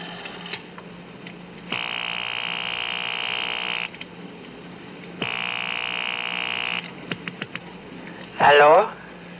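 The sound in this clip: A telephone rings down the line on a call placed from a gas-station payphone: two long, steady electronic rings separated by a pause, then a few faint clicks and a brief voice answering.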